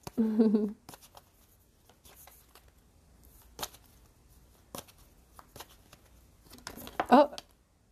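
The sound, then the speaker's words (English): Tea leaf oracle cards are drawn from a deck, with a few soft slides and snaps of card stock between brief bits of talk at the start and end. “one card just came out, but I think I'm going to go for three with these general cards”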